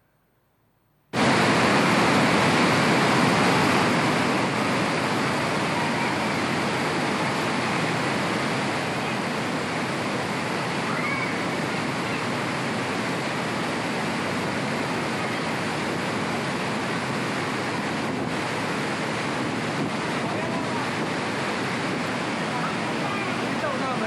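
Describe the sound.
The Silver Chain waterfall, heard from a played video, kicks in abruptly as a loud, steady rushing roar of falling water that continues unbroken to the end.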